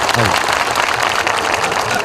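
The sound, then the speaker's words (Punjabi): Dense, steady audience applause follows a recited Punjabi song mocking astrology, holding at an even level for the whole stretch with a voice briefly heard near the start. “ਇੱਕ ਤਾੜੀ ਲਾ ਕੇ ਜਾਜ ਦੇ ਦਿਓ ਫਿਰ।”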